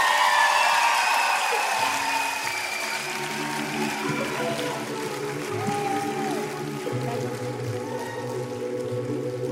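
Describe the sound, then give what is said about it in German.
Concert audience applause at a live pop music event: dense clapping and scattered whoops, with sustained musical tones entering underneath after a couple of seconds and continuing beneath the crowd. “Ein Applaus an euch selbst, ihr seid so krass!”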